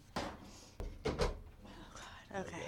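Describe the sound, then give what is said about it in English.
A door is opened with a few sharp wooden knocks and clunks in quick succession, under and between speaking voices. “Yeah, the listeners aren't gonna know what the hell. She opened the door for anybody listening”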